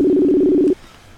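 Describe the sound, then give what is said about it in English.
A telephone tone sounds while someone dials a caller: a single steady, loud electronic buzz that holds for under a second and then cuts off abruptly into near silence. “I'm dialing up folks now, trying to keep it interactive and fun.”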